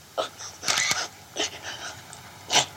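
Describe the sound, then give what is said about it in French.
Camera shutter clicking during a photo shoot of a woman in tears, a few sharp clicks, some in a quick cluster, mixed with her faint sobbing hiccups. “Et ce qu'on entend, les hoquets noyés dans le cliquetis de l'appareil”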